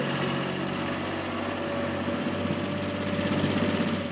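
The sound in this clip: Steady drone of a farm vehicle's engine running on a dairy farm. The low, even hum carries a sustained tonal whine and stays at a constant level for the whole stretch, with no talk.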